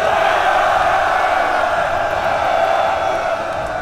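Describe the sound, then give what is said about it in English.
Soldiers cheering before a siege battle, a thick, sustained roar of many shouting male voices that holds steady and eases off slightly at the end. “The men cheered.”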